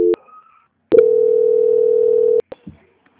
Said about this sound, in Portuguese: Agora eu vou estar transferindo para o controle de qualidade e já vão te atender, tá? Não desliga a ligação, só um momento. Transferência.